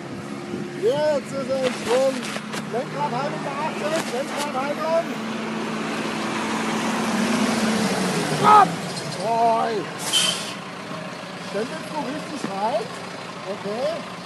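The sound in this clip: Tractors driven by farmers practising safe driving on an automobile club's training track near Frankfurt in western Germany, a steady low engine drone that swells and fades, with voices talking over it.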